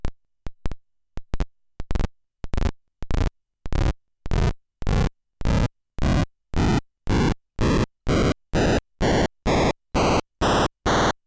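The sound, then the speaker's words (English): An SN76489 sound chip plays buzzy, metallic looped noise in many separate bursts with silent gaps between them. The bursts grow longer and rise in pitch from very short clicks to sustained, harsh, tonal buzzes. “And here's the loop noise, which gives that more buzzy, metallic sound.”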